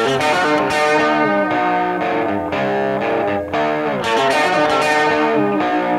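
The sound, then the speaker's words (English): Distorted electric guitar plays with bent strings. Loud, sustained notes slide up and down in pitch, and the tone rings thickly with effects throughout. “You can play the guitar and sound fine, but if you bend the strings, you get to sound like this.”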